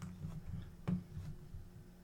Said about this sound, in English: I'm going to click the button